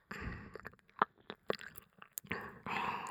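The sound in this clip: A mouth nibbles and chews on an earlobe: many soft, wet smacks, clicks and crunchy bites in an irregular rhythm, faint and close.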